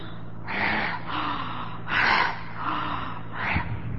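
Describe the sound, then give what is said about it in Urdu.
Forceful deep breaths from the throat, pushed onto a hand through an open mouth: three harsh, airy bursts at an even pace, with softer breathing between them and no talk. “منہ کھول کر زور سے 3 بار حلق سے پوری سانس ہاتھ پر لیں”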